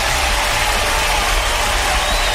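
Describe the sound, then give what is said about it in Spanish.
A crowd claps its hands in a dense, even burst of applause. The sound holds at a steady level from start to finish, and no clear voices rise out of it. “Ahí está, un aplauso.”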